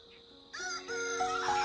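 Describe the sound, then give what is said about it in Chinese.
A rooster crows on a farm that raises local and black chickens: one loud, drawn-out harmonic crow rises in after a quiet start and carries on strongly to the end. “他养殖的主要是本地鸡和黑鸡”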